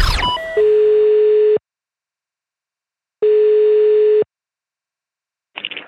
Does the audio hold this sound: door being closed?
no